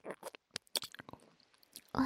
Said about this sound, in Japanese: もう一口 風吹き大根美味しいよ。